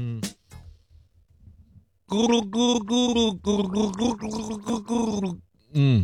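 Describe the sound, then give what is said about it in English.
Gargling by a person practising for a game of gargling songs: a short gurgle at the start, then about three and a half seconds of loud, bubbling gargled notes with a sung pitch, and a final burst at the end. “Let me just practice gargle. Hang on.”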